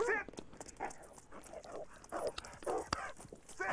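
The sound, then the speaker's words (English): A dog barks in a rapid run of short, sharp yips and barks, several bursts packed into a few seconds. “What the dog doing? Just kick the dog.”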